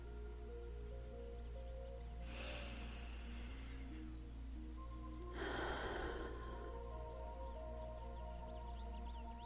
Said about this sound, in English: we start with three deep breaths. Join with me.